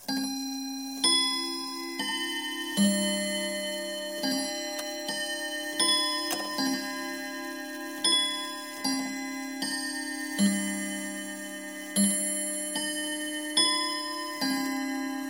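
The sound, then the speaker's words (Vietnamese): A clock strikes eight o'clock with a series of resonant, bell-like chimes, each ringing out and decaying before the next at an unhurried, even pace. The chimes are fairly soft, with no talk. “Đồng hồ điểm 8 giờ, tiếng chuông đầu tiên cắt ngang những suy tưởng của tôi.”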